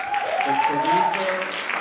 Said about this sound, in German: Erst dann, Einige Sekunden verzögert, bricht der Applaus los.